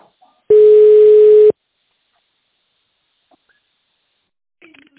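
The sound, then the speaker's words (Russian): A single steady telephone ringback tone, about one second long, sounds on an automated phone line while a call is transferred, followed by near silence and a faint brief noise at the end. “тональном режиме добавочный номер сотрудника или нажмите 0 для соединения с оператором. Ваш вызов переводится.”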